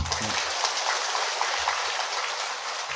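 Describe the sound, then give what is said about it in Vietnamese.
An audience at a question-and-answer teaching session claps to signal that time is up, a dense, steady applause that holds at an even level for about three seconds. “vỗ tay là hết giờ phải không? Vỗ tay là hết giờ.”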